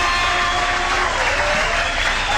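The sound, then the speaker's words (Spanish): Audience applause for Héctor at a Latin orchestra music event, a dense, even wash of many hands clapping at steady loudness from start to finish, with no voice standing out. “y un aplauso bien grande para Héctor, vaya que se lo agradezco. Vaya el aplauso”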